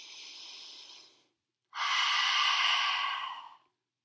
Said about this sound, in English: Deep breathe in. And one more. Deep belly breath in.